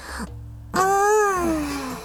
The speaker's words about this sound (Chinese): 他打了个哈欠